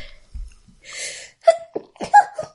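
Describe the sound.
A single sneeze bursts out as a short, breathy spray of noise, followed by a few quick spoken exchanges.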